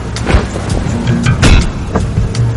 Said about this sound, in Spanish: Dave se sienta frente al volante y Miles en el asiento del copiloto.